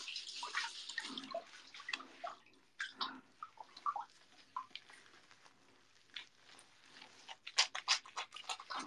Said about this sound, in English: Okay, I'm gonna shampoo my hair.